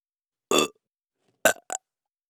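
A loud burp followed by two shorter belches in quick succession, with no talking.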